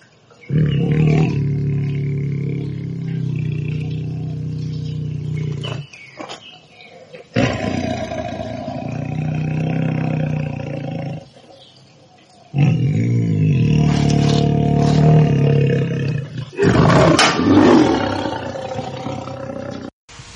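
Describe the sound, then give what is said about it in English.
A tiger roaring in four long, deep bouts of low, rumbling growls separated by short silences, each bout loud and sustained for several seconds. “At the number 2 slot is the tiger.”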